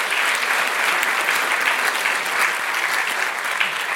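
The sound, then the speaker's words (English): Sustained audience applause at an evening event, many hands clapping in a thick, even texture at a steady loudness throughout, with no voices above it. “Let's give them all a big hand.”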